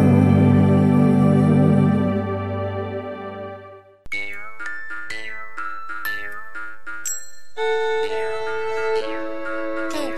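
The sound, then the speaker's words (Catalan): Festive bells ring out for a celebration in Salom, opening with a long sustained tone that fades before a lively run of many bright, chiming strikes at varied pitches, steady and loud with no voices. “De Salom toquen a festa i fan ding-dong, ding-dong, ding-dong.”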